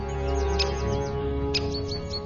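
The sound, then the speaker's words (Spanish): Small birds giving alarm calls at a little owl: sharp, high chirps in two brief clusters with lighter ticking notes, heard over a steady, sustained tonal background. “La razón de tanta excitación es un pequeño mochuelo. Cada vez que sale de su casa, todo el mundo da la alarma.”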